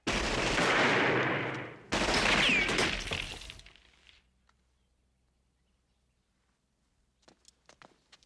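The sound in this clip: Gunfire rings out in two long, loud bursts of rapid shots mixed with shattering glass. The noise then dies into near silence, broken only by a few faint taps near the end.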